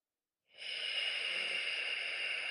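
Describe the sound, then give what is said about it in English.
A gentle exhale through pursed lips during a guided breathing exercise: after a moment of silence, a smooth, airy hiss begins and holds steady and even until the end. “So when you breathe out gently. So keep the expanse as you release the breath. Keep your mouth, your lips pursed.”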